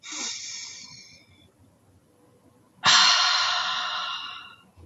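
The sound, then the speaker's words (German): Two deep, deliberate breaths are taken by a person, a slower airy one followed after a pause by a louder, longer, rushing exhale that fades gradually, heard alone with no talking. “I walk the talk mit einem ganz bewussten Atemzug. Wer will, kann mitmachen.”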